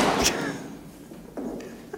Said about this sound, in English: I didn't tell you to shut your desk, did I?